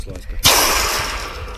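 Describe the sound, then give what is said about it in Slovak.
A football is blasted into a goal on a football pitch: one sudden, loud impact followed by a long, broad rushing noise that slowly fades. “Každý nám teraz asi uveril, že naozaj sa nachádzame na futbalovom ihrisku, pretože do bránky vpálila lopta futbalová.”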